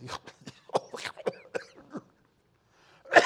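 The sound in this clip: A man vocally imitates the breathing of sleep apnea: a run of short, raspy snorting breaths, then a stretch of silence while the breath is held, ending in one loud, sudden gasp.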